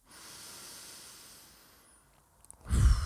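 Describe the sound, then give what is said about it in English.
A deep breath is taken: a long, soft, airy intake, followed by a sudden, louder, rougher rush of breath at the end. “Let's take a deep breath.”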